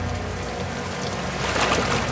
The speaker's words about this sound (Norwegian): så kommer politibåten, den røde gummibåten, kjørende. Det en solid ribb med kraftig motor.